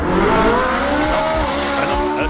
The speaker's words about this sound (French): Une très très grosse Ferrari, ça. Eh bien, à partir d'aujourd'hui, ça va aussi sonner comme ça.